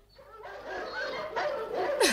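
Dogs yipping and whimpering: a few faint, high, tonal yelps and whines with wavering pitch, and a sharper yelp near the end.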